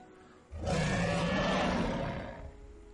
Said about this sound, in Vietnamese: Nó cuồng bạo phát ra một tiếng gầm thét chấn nhiếp nhân tâm, lại là nặng vô số nhào trên biển, rồi lại chìm.